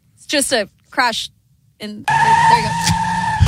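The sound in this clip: Race car skidding: after brief voices, a loud sustained roar of engine and tire noise with a steady whine runs to the end.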